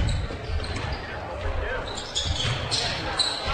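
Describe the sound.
A basketball dribbled on the court during a game as a player crab-dribbles into the lane: many steady bounces run under continuous talking and background noise.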